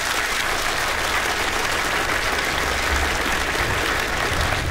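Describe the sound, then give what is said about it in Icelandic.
Audience applause for a musician: dense, loud clapping that holds steady from start to finish. “Frábær, hefur ekki að gefa henni aðeins meira klappara?”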